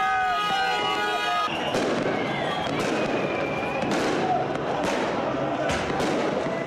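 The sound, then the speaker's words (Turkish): Fireworks burst repeatedly during a street celebration of a football win, with sharp cracks and booms recurring at irregular intervals over a dense, constant crowd roar and voices. “Dakikalarca havai fişek sesleri yankılandı.”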